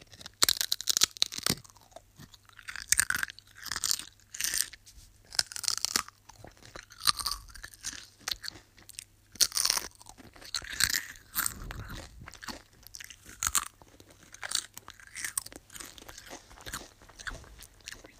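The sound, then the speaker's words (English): Pringles crisps being crunched and chewed, with many sharp, brittle crunches and wet chewing sounds in an irregular rhythm, fairly faint and heard alone. “Now I'm going to be using Pringles to make a nice crunchy sound.”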